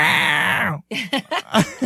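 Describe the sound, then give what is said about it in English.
A person mimicking a toddler's shrill, pterodactyl-like meow: one long, screechy, strained cry, then a few short, broken vocal squeaks after a brief gap. “She said, that's him meowing. That's him meowing.”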